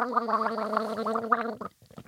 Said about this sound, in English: Do you mind if I have a quick gargle? No, not at all.